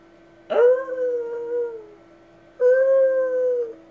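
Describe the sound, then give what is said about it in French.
A lost dog howls in the distance twice: two long, mournful, wavering tones, the first starting with a sharp onset, each sliding slightly downward as it fades, separated by a short silence. “Un silence profond qu'accentuaient les hurlements lointains d'un chien perdu.”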